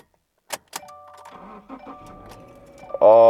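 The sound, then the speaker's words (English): A car engine is started with the key: two sharp clicks as the key turns, then a sustained electronic tone while the ignition readies, before the engine catches and bursts into a loud roar at the end. “So let's go ahead and plug the key in and start her up and see how she sounds.”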